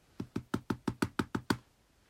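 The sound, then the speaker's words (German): Nine evenly spaced drum-like thumps struck in a quick, steady series as a drum roll, each short and punchy with a low body, soft and heard alone. “Und Trommelwirbel”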